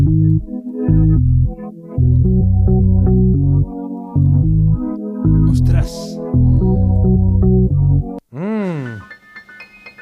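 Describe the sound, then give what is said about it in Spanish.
Isolated bass line from a disco-style dance song, thumping out a steady, repeating pattern of punchy low notes in short phrases, followed at the end by a brief exclaiming voice. “Este sería el bajo, ¿no? El bajo, claro. Sí, el bajo.”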